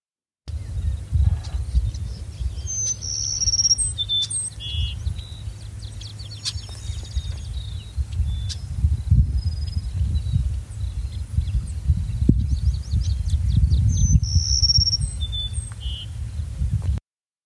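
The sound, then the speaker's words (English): A long-billed, plain-looking sparrow sings a melodious song: a few bright, musical phrases of whistled notes and trills stand out above a steady low rumble. “This long-billed and plain-looking sparrow announces its presence through a most melodious song, a musical pattern that hit songs are inspired by.”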